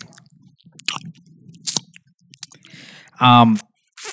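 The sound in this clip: Wet mouth sounds of someone licking a spoon and eating Nutella: scattered clicks, smacks and chewing noises, loud and close, with a brief voiced burst near the end.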